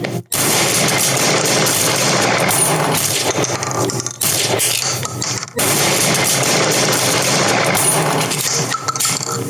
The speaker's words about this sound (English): less talking and more shooting.